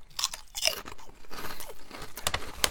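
Crisp crunching and chewing of thick, small shrimp-flavoured potato chips about 3 cm across, made by Kameda Seika. Many sharp bites and crackles come in quick succession with no talk.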